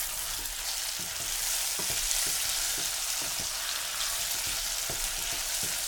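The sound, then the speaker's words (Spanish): Onion, garlic and diced apple sizzle vigorously in a pan over lively heat, a dense steady crackle broken by many light scraping clicks from stirring, with no talking. “lo normal es que aquí ya notes que el fuego está como más vivo, que el sonido es como más potente y casi suena más a frito que a cocido”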